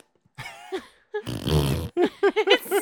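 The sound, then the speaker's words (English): A human voice imitating fart sounds: a few short grunting bursts, then a long buzzy, sputtering rasp, followed by a quick run of short voiced pops, loud and alone. “This one has a fart track. Oh. Where just like after someone will say something, you'll be like,”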